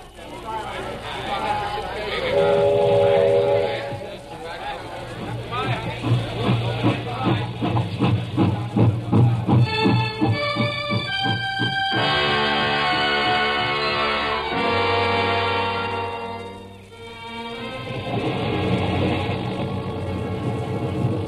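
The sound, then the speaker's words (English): A steam train at a railroad station, with a hiss of steam and a rhythmic chugging that swells and fades, mixed with sustained tonal sounds and voices. “On our way to the station. The railroad station?”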